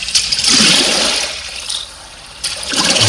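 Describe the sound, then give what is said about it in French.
Oars of a rowing boat churn and splash through water in a loud, hissing wash. The sound swells, eases into a quieter lull, then surges again in a second burst of sloshing. “Des rames dans l'eau.”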